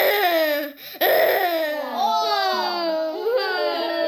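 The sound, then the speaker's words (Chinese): A voice imitates sad crying with continuous wavering wails and sobs that swoop up and down in pitch. There is a brief catch near the start, then long, drawn-out cries. “哭声要再悲伤一些，像这样。”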